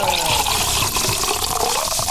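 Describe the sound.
Tubaína soda pours into a glass in a steady, fizzy rush of liquid that runs continuously for about two seconds, with no talk over it.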